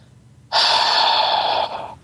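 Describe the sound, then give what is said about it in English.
A voice imitates a man's heavy exhale: one long, breathy rush of air that starts abruptly, holds strong for over a second, then tapers off. “he exhaled and he's like, 10 minutes”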